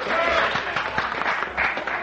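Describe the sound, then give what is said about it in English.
Studio audience applauds a country music singer on a television country music show, a moderate patter of clapping with a few distinct claps and voices mixed in. “Let's all get together right now and give a real nice round of applause to the sweetheart of country music.”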